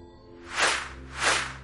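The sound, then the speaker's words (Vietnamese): Arrows whoosh through the air in two evenly spaced, broad rushing swishes. Each swells and fades smoothly over a faint, low background tone. “Bỗng vút vút hai mũi tên từ đâu phóng tới, cắm thẳng vào yết hầu và mắt trái của hai tên đàn em.”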